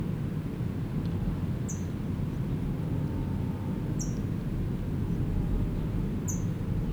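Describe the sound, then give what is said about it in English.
An adult brown towhee gives three sharp, high chips near its nest. The chips are spaced a couple of seconds apart and sound faint over a steady low rumble. “Adult is chipping, it's got food in its bill, and I'm hoping it will go in, but I doubt it.”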